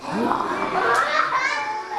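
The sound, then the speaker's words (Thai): A child imitates a tiger's roar with one drawn-out, rough, voiced growl that fills about two seconds at an even, fairly loud level. “เสือร้องยังไงคะ”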